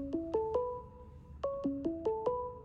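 Ringtone of an incoming phone call plays quietly as plucked electronic notes in two short phrases, three notes followed after a pause by five more, each note chiming briefly and decaying.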